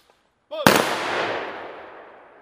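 A rifle volley fired on command during a ceremonial honour salute: one loud, sharp crack with a long fading tail, coming just after the end of a shouted order.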